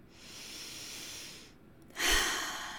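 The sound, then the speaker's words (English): Slow, deep breathing during a guided breathing exercise: one long, soft inhale, a brief pause, then a louder, forceful breathy exhale. No one talks. “So just breathe with me. One more time.”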